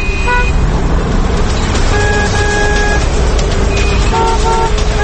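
City traffic while driving: a dense, loud, steady rumble of cars and engines, with several car horns honking over it in short and longer blasts, some overlapping.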